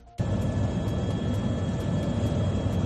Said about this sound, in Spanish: Este es el sonido de uno de los 4 helicópteros que participan en el operativo.